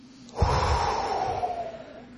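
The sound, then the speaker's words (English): A single long, deep breath taken during a calm guided prayer for relaxation. It is a soft, steady rush of air that swells and lasts about a second and a half, with no talk over it. “We just let them go. Take a deep breath.”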